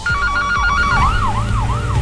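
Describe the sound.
An ambulance siren wails loudly, its tone sweeping up and down in a steady repeating cycle over a low rumble.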